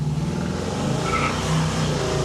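A car drives along with a loud, steady engine drone that swells slightly as it revs, heard alone without talk.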